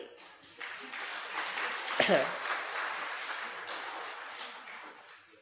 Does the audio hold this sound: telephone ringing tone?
no